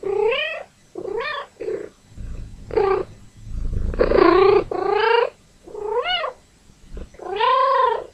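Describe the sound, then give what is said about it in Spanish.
A cat that wants to play meows again and again. Many loud, bending meows come in short and drawn-out forms, with brief pauses between the calls. “Vamos a escuchar algunos gatos. Este es un gato que quiere jugar.”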